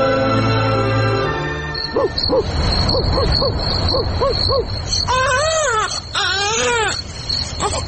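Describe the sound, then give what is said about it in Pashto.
An infant crying in a run of short, high-pitched wailing bursts, loud throughout, giving way to longer rising-and-falling wails near the end. “وو خزی دی ماشوم خو مغزه را وخړل، دا ولې نغلی کوي؟”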